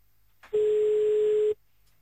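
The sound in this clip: A single steady ringback tone from an outgoing phone call that has not yet been answered. It lasts about one second, holds one even pitch, and is heard alone between silences.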